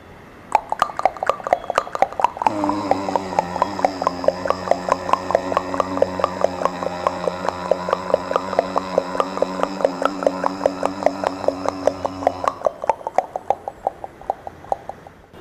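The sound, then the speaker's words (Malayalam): A voice imitates a horse and a motorbike going together: rhythmic tongue clicks like hoofbeats run steadily throughout, joined through most of the middle by a sustained buzzing, engine-like hum. “അടുത്തതായി കുതിരയും ബൈക്കും ഒരുമിച്ച് പോകുന്നുള്ള ശബ്ദം”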